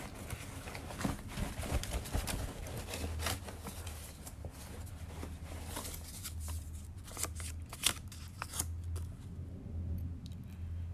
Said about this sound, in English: Let me just go into my bag here and draw out the name.